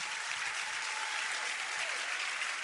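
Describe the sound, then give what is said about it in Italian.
Audience applause at a live talk event in Campobasso, with dense, steady clapping from a crowd that stays fairly faint and even from start to end. “Amici di Campobasso, amici che ci seguite in diretta streaming, un grande applauso a Giuseppe Conte,”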